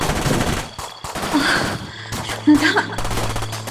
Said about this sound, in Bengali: ওটা machine gun এনেছে M ten round rapid fire